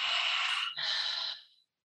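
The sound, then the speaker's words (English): A long, breathy exhale through an open mouth during a breathing exercise: a steady rush of air with a brief dip partway through, then it tapers off into silence. “exhale all the air out. So you would think about exhaling for like 5 to 10 seconds or so.”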